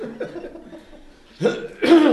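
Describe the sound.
Coughing after choking on water begins with quieter throaty sounds, then two forceful, harsh coughs burst out close together.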